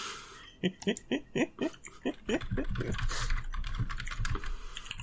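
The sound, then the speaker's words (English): Typing on a computer keyboard: a quick run of distinct, sharp key clacks, then a denser, steadier clatter of many keystrokes. “I say, having to type a bunch of shit now.”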